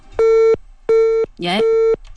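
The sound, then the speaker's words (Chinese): A telephone busy tone sounds after a caller hangs up on a call-in line. Three steady, equal-pitched beeps are evenly spaced with short gaps, and a brief voice overlaps just before the third beep. “李女士挂了电话了啊。我们的导播重新来接一下啊。”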